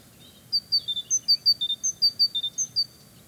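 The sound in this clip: Young birds chirping in a large tree-filled park: a rapid series of many short, high, bright tweets over a faint, low, steady background rumble.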